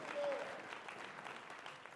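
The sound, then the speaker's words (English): A church audience claps its hands in praise during a service. The clapping is continuous and fairly faint, loudest at the start and then settling to a steady patter. “would you give the Lord a hand clap of praise today?”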